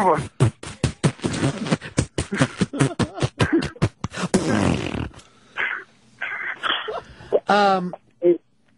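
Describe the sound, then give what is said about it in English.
A voice imitates a fart with a rapid series of loud, sputtering raspberry bursts. A few shorter, more tonal blurts with gaps between them follow. “I've never heard Big A fart on the air. It would sound like this.”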